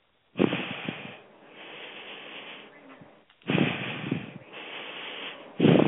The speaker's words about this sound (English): Take three nice deep breaths.